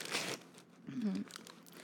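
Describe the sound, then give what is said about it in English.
Tissue paper is pulled off a box of custom-made Christmas items with a soft, faint rustle and crinkle in a few brief bursts. “Taking the tissue paper off the box.”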